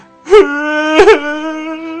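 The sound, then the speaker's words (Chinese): A man wails and sobs loudly: two sobbing bursts, each swelling into a long, sustained, tonal moaning cry that carries on without a break. “他两手掩面，开始嚎啕大哭。”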